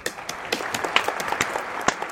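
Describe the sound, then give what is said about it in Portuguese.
Applause from a small group, scattered and uneven claps popping out irregularly over a light bed of clapping, moderately quiet. “Aplausos.”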